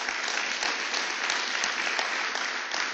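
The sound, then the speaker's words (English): Applause from a church audience after worship: a dense, continuous clatter of many hands clapping, even and unbroken from start to finish. It is fairly faint and carries no voices. “Please give the Lord a big hand.”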